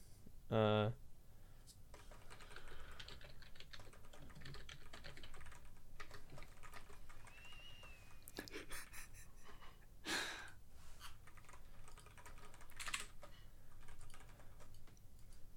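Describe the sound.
Faint keyboard typing as someone writes something down: scattered soft clicks and taps spread unevenly across the stretch, with a few louder knocks standing out against low background noise.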